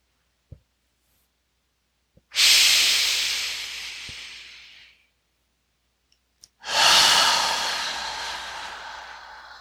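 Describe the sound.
Two long, breathy exhalations during a breathing exercise, each starting abruptly with a loud airy hiss that slowly fades, separated by a pause with a few faint clicks.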